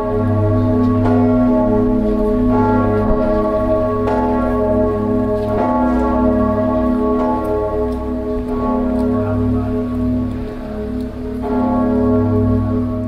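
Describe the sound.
The Totenglock bell of Strasbourg Cathedral, cast in 1427 and tuned to G sharp, weighs 8,900 kilograms and measures 2.22 meters across. It rings as a loud, continuous, deep and richly layered tone that holds steady throughout, with a few fresh strikes renewing it.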